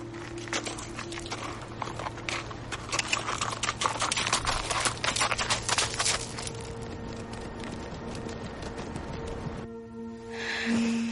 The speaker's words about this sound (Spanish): se monta en su caballo y se marchan.